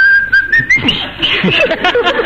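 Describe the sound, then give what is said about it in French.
Whistling that imitates a bullet in flight: a thin tone climbs steadily in pitch over the first second, then breaks into scattered higher chirps over a busy, clattering background. “La balle se dirige vers le docteur en sifflant.”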